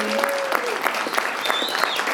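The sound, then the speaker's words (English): A round of applause rings out as steady, dense clapping from an audience, staying even in level for the whole stretch. “let's give another round of applause for Desmond”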